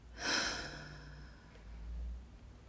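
A deep exhale through the mouth during a guided relaxation breathing exercise: one soft, breathy rush of air that swells quickly, then fades gradually over more than a second, with no voice.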